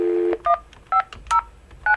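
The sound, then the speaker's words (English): Telephone keypad dialing a call. A steady dial tone cuts off, then four short dual-pitched beeps sound at uneven intervals, with faint clicks between them. “To find out, I called her.”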